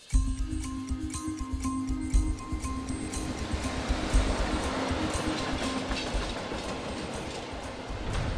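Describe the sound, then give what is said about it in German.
A green open mine train with bench-like seats rattles through an arched gate into a tunnel in a mountain. The loud, steady clickety-clack of the wheels runs continuously, with no voices. “Mit lautem Rattern fuhr die Bahn durch ein gebogenes Tor, das direkt in den Berg hineinführte.”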